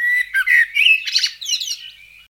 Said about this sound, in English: Bird.